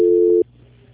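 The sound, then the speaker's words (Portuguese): A telephone tone sounds while a call is being transferred: a single steady electronic beep lasting under half a second, then it cuts off abruptly into quiet line noise. “Fica na linha, não desliga. Tchau, tchau. Só um minuto. Transferência.”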